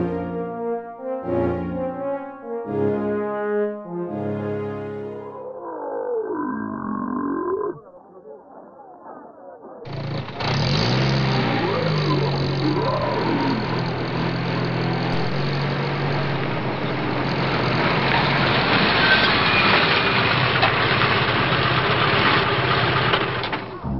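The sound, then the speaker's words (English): Humvee engine running as the vehicle is brought around, a loud, steady, rumbling drone that starts partway through, after a stretch of other tonal sounds, and continues unbroken to the end. “Sergeant, bring the Humvee around.”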